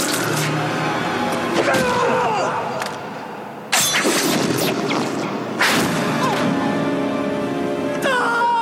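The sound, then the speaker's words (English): Heavy thwacking impacts from a ball kick, two sudden loud hits bursting out of a dense, noisy background with voices. “Time for another ball kick.”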